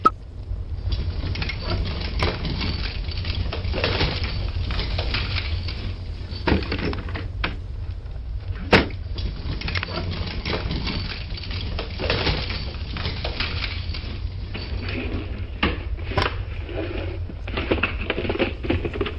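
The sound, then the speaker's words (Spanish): Drawers in a host's house are opened and rummaged through, giving a steady busy clatter of scraping and shuffling with a few sharper knocks and thuds scattered across it, and no talk. “¿Ahora le da por fisgonear en los cajones del anfitrión de la casa?”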